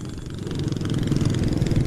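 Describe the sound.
A motorcycle engine while riding, heard from the passenger seat on a road: a continuous loud mid-pitched rumble with fast, steady pulsing and no talk.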